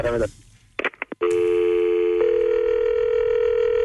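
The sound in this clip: Telephone tones from a call to a restaurant: a few short beeps, then a loud, steady continuous tone that steps slightly higher partway through and holds to the end.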